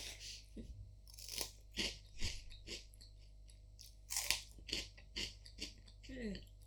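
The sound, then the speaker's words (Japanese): Crunchy avocado-and-soy-sauce-flavoured snack sticks are bitten and chewed, giving many sharp, crisp crunches in an irregular rhythm, quiet overall with a few louder bites. “でもアボカド醤油なんてよく考えるよね。うん、でも美味しいか。もう一本食べてみよう。”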